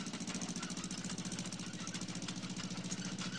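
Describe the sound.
Tractor engine running in a vineyard during the grape harvest, a steady, fast chugging pulse that stays loud and even throughout, with no voices.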